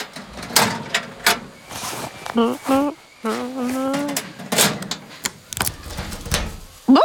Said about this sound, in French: mon doudou, il faut mettre tes affaires dans un petit casier que l'on va fermer